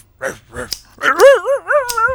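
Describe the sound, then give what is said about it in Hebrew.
A dog gives a couple of short, sharp barks, then a long, wavering, whining howl that rises and falls in pitch. The barks are brief and moderately loud, and the howl holds steady in volume until the end. “שהביאה איתה את הכלבה ונדי. אבל זה בכלל הכלב שלי בנג'ו.”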